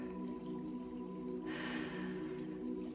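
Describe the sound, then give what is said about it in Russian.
A single soft, airy breath, part of slow breathing in and out, rises briefly out of a faint, steady background hum. “Вдох. Выдох.”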